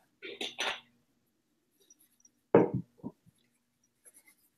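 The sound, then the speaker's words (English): Pen strokes as notes are handwritten: a few short, faint scratching bursts with quiet gaps between them. “So I'm just writing notes so I don't forget.”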